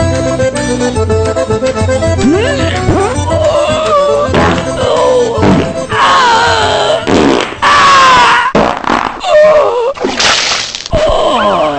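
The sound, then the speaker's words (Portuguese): Loud, rasping fart noises with warbling, sliding pitch follow one another continuously, dense and unbroken, with bursts of sharper crackle in the later part. “ainda hoje tá fedendo o peido que a doida deu”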